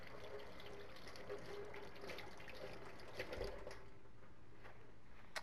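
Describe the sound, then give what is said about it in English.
Tap water runs over a couple of fresh mushrooms as they are rinsed, making a steady, even rushing hiss that carries through the whole stretch without pause. “So let's have a couple of these. I do give them a rinse.”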